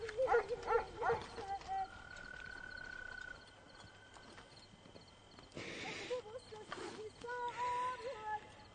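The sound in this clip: A horse tied to a wooden fence in a yard shifts and clops its hooves and gives a short whinny, all faint and low in level with quiet stretches between the sounds.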